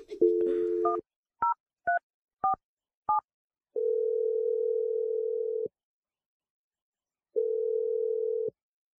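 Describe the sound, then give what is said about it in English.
A telephone number is dialed: a brief dial tone mixed with keypad tones, then four quick evenly spaced keypad beeps, followed by two long, steady ringing tones separated by a pause. “Let's just dial the number.”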